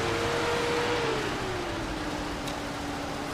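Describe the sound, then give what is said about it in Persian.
A truck engine drones steadily as it drives into a garage. The broad, even rumble carries a faint whining tone that dips slightly in pitch and then holds level. “رضا با کامیون میاد تو گاراژ.”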